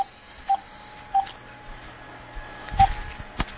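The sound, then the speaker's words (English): Telephone keypad DTMF tones as someone dials a city council office number: a few short, clear beeps at an even pitch, spaced irregularly with pauses between them. “But we're dialing now.”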